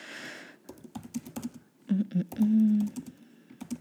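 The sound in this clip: Keys clattering on a computer keyboard as a note is typed: irregular bursts of light, crisp clicks, broken by a person's voice murmuring and humming.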